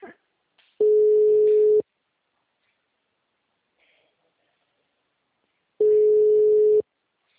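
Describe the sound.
Ringback tone of a telephone call that has not yet been answered: two steady, mid-pitched tones, each about one second long, separated by several seconds of near silence.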